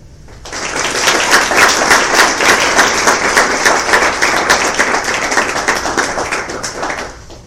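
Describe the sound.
Applause welcoming a provost at a university event: dense clapping from many hands rises quickly after a brief quiet start, then holds loud and steady before easing slightly at the end.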